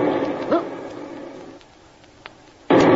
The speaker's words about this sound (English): That was a torpedo. Stand by. We may have to abandon ship.